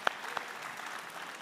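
A church audience claps to welcome the children, a soft, steady patter of applause at low volume with a couple of sharper claps near the start.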